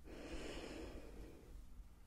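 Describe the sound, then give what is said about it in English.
A deep breath in, taken on request during a cranial nerve examination: a quiet, drawn-out breathy inhalation with a soft airy hiss. “Okay, if you can just take a deep breath in. Do that again. Deep breath in”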